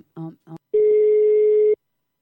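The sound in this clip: Ringback tone of an outgoing phone call: two brief voice sounds, then a single steady, mid-pitched tone lasting about a second that stops cleanly.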